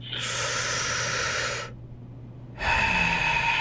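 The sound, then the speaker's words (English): Slow, deep breaths drawn in during a guided relaxation exercise: one long, airy breath lasts about a second and a half, then a short quiet gap, then a second loud, hissing breath begins and runs to the end. “let's do three big, deep breaths, nice and slow, all the way in.”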